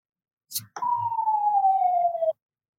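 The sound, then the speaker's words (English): A siren passes outside a house as a single clear tone that slides slowly downward in pitch for about a second and a half, preceded by a brief burst of noise. “I apologize if you could hear the siren that just happened outside my house.”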